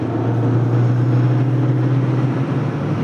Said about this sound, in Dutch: nou schakel je over naar de overdrijf. Hij zakt dan eh, gewoon eh, een paar honderd toeren. Je rijdt nu zeg maar iets over de 100, 110 km per uur en dan draait hij 5, 2800 toeren.